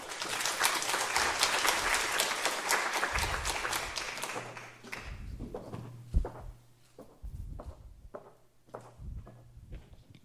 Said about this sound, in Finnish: Joten isolla aplodeilla meidän seuraavalle puhujalle Tiina Silander,